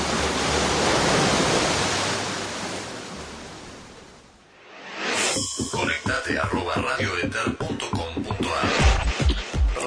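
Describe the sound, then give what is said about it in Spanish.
Broad, rushing roar of waves surging onto a wild beach where rocks meet the sea. It is loud and steady for about four seconds, then dips away before choppier, more broken sounds take over. “Esta playa tiene toda la onda. Y sí, es Playa Salvaje. Playa Salvaje, donde las rocas golpean al mar.”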